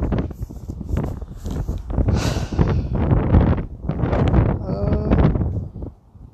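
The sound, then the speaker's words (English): Strong wind buffets the microphone in low, rumbling gusts that swell and ease throughout, with a person talking over the noise. “I like this wind speaking of the wind, I swear. The wind is everywhere.”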